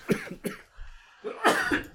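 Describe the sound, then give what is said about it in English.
A few short, fairly faint coughs from a person, the first two quick and separate, then a longer, rougher burst near the end. “So I need to cough a second.”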